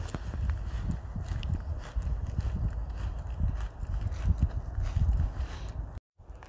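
Footsteps walk along a path through a polder, a steady series of soft, low thuds over light outdoor noise, cutting off abruptly near the end.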